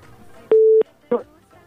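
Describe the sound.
A phone call drops, and a loud, steady electronic tone sounds for about a third of a second, followed by a shorter, fainter burst.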